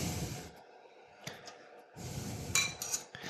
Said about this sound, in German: schöpfen und versuchen möglichst eine ideale Kombination aus Zwiebeln und Suppe in, den, in die Schüssel zu geben.